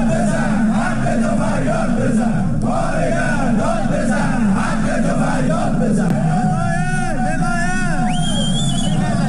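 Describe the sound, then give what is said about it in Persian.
Striking home-appliance factory workers and Sarma Afarin company staff chant protest slogans at a rally in the Alborz industrial town, Alvand, Qazvin. The dense crowd chant is steady and rhythmic, with louder individual shouts rising near the end. “کارگران کارخانه لوازم خانگی و کارکنان شرکت سرما آفرین در شهر صنعتی البرز در الوند قزوین دست به اعتصاب زدند و در تجمع اعتراضی خود شعارهایی سر دادند.”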